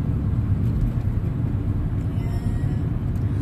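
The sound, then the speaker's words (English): Engine and road noise from a car being driven, a steady low rumble and hiss that stays even throughout with no voices over it. “I'm driving right now. You can't hear it. You can hear it.”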